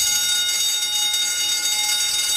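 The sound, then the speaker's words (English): Alarm bell ringing as a sound effect, a loud, continuous metallic clangour that holds steady without pause for the whole stretch. “Alarm! Still want to ring the alarm.”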